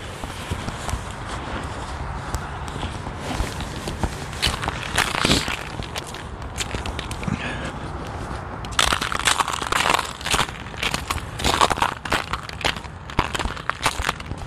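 Crunching footsteps on a mostly cleared winter sidewalk with leftover debris still lying in places, a steady walking rhythm of gritty crunches that grows louder and rougher in the second half.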